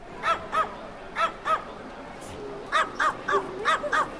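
Dogs barking in a hotel lobby: many sharp, high yaps that come in quick pairs and small clusters over a low, steady background murmur.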